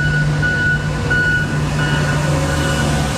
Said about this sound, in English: the only vehicles I see in the lanes of the Don Valley Parkway, both northbound and southbound here south of Bloor, are street sweepers and front end loaders.